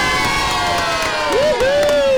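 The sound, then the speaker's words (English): Primary school children cheer in a studio, a loud burst of many young voices shouting together, with one high whooping cry rising out of the noise near the end. “They're in the room with us right now. The Dragonflies, can we make some noise?”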